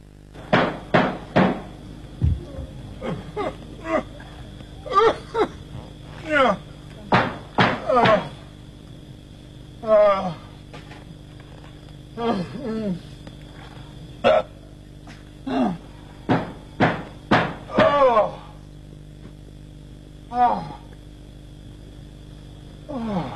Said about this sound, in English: Here's a knocking indeed.